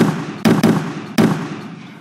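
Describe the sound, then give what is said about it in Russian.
A series of grenade explosions on a field: three sharp, loud bursts, the second close behind the first and the third after a short pause, over a steady rumbling background. “Серия взрывов перепахала поле”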